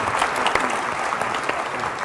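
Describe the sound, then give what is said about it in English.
An audience at a political event welcomes a senator with loud, sustained applause: thick, continuous clapping at a fairly even level from start to finish. “Big round of applause for Senator Udall.”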